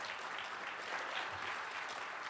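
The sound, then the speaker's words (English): An audience applauds panelists at a panel event with steady, continuous clapping that stays even and fairly faint throughout. “let's give a claps for our panelists here today.”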